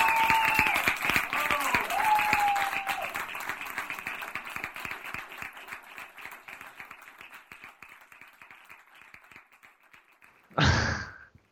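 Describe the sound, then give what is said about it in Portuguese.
Applause and clapping from a few people after a joke, a voice briefly over the start, the clapping thinning and fading steadily over several seconds before one short, loud burst near the end. “Uhul! Palmas pra ele.”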